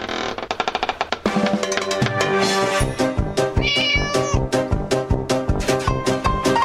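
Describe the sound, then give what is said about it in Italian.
Kittens meowing in a recording played from an internet video, many high, loud meows in quick rhythmic succession throughout. “Esatto, i gattini come quelli di Oscar.”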